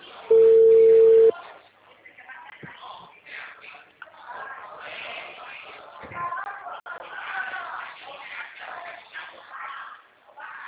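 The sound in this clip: A steady single telephone tone sounds as a call is being dialed. The tone holds for about a second and then cuts off, leaving faint handling and rustling noise.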